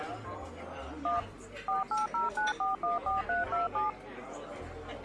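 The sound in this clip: Keypad tones from a phone being dialed to reach a lost cell phone: a single beep, a pause, then a rapid, even run of many short, clear electronic beeps over steady background noise.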